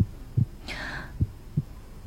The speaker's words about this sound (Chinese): 耳朵贴着他胸膛，隔着他身上白色的毛衣听见清楚起伏的平稳心跳声